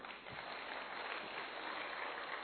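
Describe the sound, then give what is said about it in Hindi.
Audience applause after a stage play at a community gathering: dense, steady clapping from many hands that holds at an even level for the whole clip, with a muffled, dull tone. “तालियों से बजाएं।”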